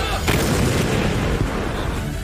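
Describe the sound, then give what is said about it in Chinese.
Booming fire from several 122 mm truck-mounted howitzers firing shells in turn: a sharp report opens into a loud, sustained rumbling roar that fills the whole clip. “随着指挥员一声口令，122毫米车载榴弹炮率先出击，数门火炮依次开火，一发发炮弹破膛而出，直击目标”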